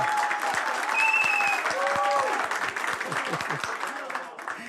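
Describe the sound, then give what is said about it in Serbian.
A Balkan tavern crowd applauds during a live singing night, with loud clapping and high whoops over it. The clapping thins toward the end into scattered individual claps. “Ja ću zamoliti kafanu još jedan veliki aplauz.”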